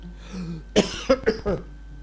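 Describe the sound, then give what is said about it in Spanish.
Throat-clearing coughs from a hoarse throat: four short, rough bursts in quick succession, each harsh and fairly loud against a quiet background. “Perdón, un poco de carraspera.”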